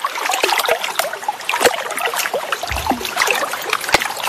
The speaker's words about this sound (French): Nous sommes à Courthézon, au bord de l'Ouvèze, chez Monsieur Mercier. On se met dans l'ambiance.